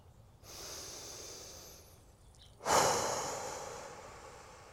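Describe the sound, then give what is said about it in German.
A deep breath is drawn in and let out, a steady airy inhale lasting about two seconds, then a short pause and a louder exhale that slowly fades away. “jetzt würde ich sagen, atme noch mal gemeinsam durch.”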